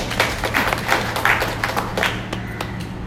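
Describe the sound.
An audience claps during a talk: many uneven, scattered claps over a low, steady hum.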